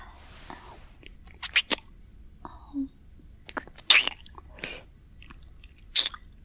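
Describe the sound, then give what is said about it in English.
Wet licking and kissing mouth sounds come as a series of soft smacks and clicks spaced by short pauses, quiet and intimate. “To give you loving licks and kisses.”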